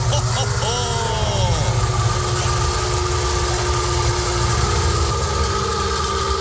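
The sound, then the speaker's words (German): The engine of a Wartburg Melkus RS 1000, an East German sports car, runs with a steady, rough low drone and a brief rise and fall in pitch near the start. “Ja, das ist der Sound des Wartburg Melkus RS 1000, der einzig echte Sportwagen der ehemaligen DDR.”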